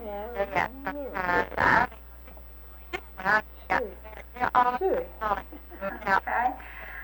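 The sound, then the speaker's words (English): A human voice calls hogs to feed with a series of drawn-out, wavering shouts, loud and separated by short pauses. “How do you call hogs to feed them? How would you call a hog if you were”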